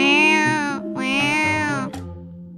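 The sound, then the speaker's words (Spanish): A cat meows twice in long, drawn-out, clear cries, loud and with nothing else behind them. “Entonces un gato metió la pata en el cubo de pintura azul y se la restregó por la cara.”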